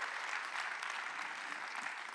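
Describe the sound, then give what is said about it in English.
A church audience claps at the end of a sermon series, a soft, steady wash of applause that holds without a break from start to finish. “Yeah, if you're going to clap, don't do a golf clap.”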